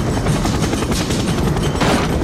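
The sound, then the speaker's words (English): Gunfire sounds as a dense, continuous roar of rapid shots, loud and crackling, with scattered sharper reports over a heavy, rumbling background. “Would you mind not shooting at the thermonuclear weapons?”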